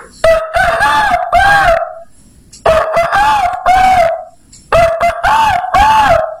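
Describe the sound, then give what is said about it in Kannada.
Three loud rooster crows in a row, each a drawn-out, warbling cock-a-doodle-doo of about one and a half seconds, separated by short pauses. “ಕಡಿಗೆ ಕೂಳಿ ಕುಕ್ತಿತ್ತು ಏಳು ಏಳು ಅಂತ ಕಣ್ ಹ್ಯಾಂಗ ಕುಕ್ತಿತ್ತು ಗೊತ್ತಾ?”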